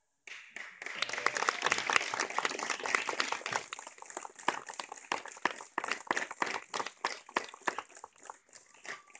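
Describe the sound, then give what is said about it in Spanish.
Audience applause after a panel discussion, with dense crowd clapping that gradually thins into scattered, separate claps toward the end. “fuerte, más fuerte el aplauso tanto para Eduardo como para Mariano, como para Eli”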